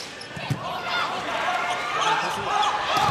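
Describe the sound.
A volleyball serve struck during a professional match, heard as a single sharp smack near the start over loud, steady crowd noise.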